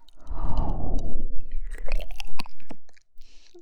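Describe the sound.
Chewing and crunching food, a few moist bites and crunches that give way to sharp clicky mouth sounds, heard alone with no talk.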